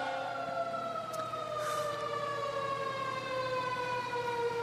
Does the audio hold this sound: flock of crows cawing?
no